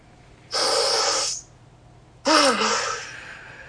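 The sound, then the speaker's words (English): A deep breath taken during a guided meditation: one long, loud inhale, a short pause, then a long audible exhale that trails into a soft voiced sigh. “you can take a deep breath. So take a deep breath.”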